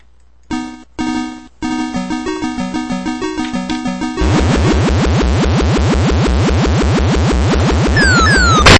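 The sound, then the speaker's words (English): Electronic sounds from the Scramble arcade video game, with a spaceship flying through caverns: a few short bleeps, then a stepped run of buzzy tones, then loud, rapid, repeating swooping sweeps with a few sharp zaps near the end. “Next up, we've got Scramble, which was one of these hella hard games. You were basically this spaceship that was flying left to right through all these caverns and stuff”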